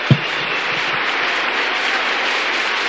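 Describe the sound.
A round of applause offered to the Lord: many hands clap in a dense, continuous clatter that holds level throughout, with one brief thump near the start.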